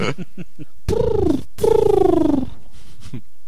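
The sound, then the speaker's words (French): A voice imitating pigeon cooing during a comedy stage show: two drawn-out, throaty coos, the second longer, each sliding gently downward in pitch, with brief quiet between them. “Ça va, ça fait pas trop pigeon. Bah, ça fait pigeon quand même.”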